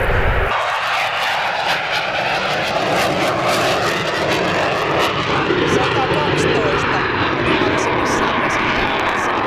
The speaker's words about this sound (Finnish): Kyllä siinä vähän yli 90 meni Finnairin matkustajakonekin. Kyllä. Onko tuo nousuun lähtö ääntä